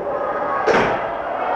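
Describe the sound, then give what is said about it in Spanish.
A door is shut with a single sharp slam midway through, a brief thud that stands out above a steady low background. “Por favor, cierra la puerta. Cierra la puerta, por favor.”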